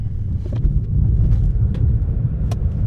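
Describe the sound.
A car accelerates quickly from a standstill, giving a loud, steady low rumble mixed with wind-like rushing noise. No one speaks.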